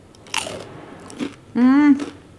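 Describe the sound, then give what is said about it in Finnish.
Biting into buttered school crispbread (näkkileipä): a few sharp, dry crunches, followed by a brief voiced hum. “Ettepä usko, miten ihanalta maistuu koulunäkki monen vuoden jälkeen. Pieni sipasu rasvaa päälle ja”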